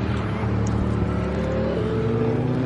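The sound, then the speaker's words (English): A truck pulls off a racing circuit with a continuous low engine rumble and a faint higher whine, holding steady and loud throughout without clear breaks. “truck pulling off the circuit there, disturbing my thought pattern there for a second.”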